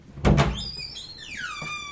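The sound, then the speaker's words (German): A door opening into a small pastel-yellow toilet room in a house's entrance area: a dull thump, then a few high, squeaky creaking tones that slide downward in pitch. “Ich mache mal die Tür auf.”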